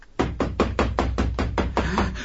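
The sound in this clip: Knocking on a door: a fast, steady run of many firm raps in an even rhythm, heard alone with no voices.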